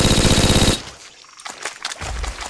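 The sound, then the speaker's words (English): Rapid, loud video-game machine-gun fire from an Omega SCR machine gun, a dense continuous burst that cuts off sharply. Quieter, scattered shots follow, and a heavier stretch of fire comes back near the end. “You've picked up machine gun tape. The Omega SCR machine gun. So, jetzt geht's richtig los.”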